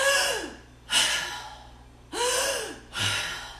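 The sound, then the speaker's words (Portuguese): Forceful breaths pushed out through the mouth during a standing breathing exercise: four sharp, breathy exhalations, each starting hard and trailing off, some with a slight voiced tone, spaced about a second apart. “Seguindo o movimento de expirar pela boca e soltar o ar pela boca.”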